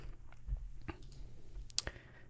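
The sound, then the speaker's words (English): Computer mouse clicks: a few small, sharp clicks, faint and spaced out, with no talk. “So let's click on one of these and see what it tells us.”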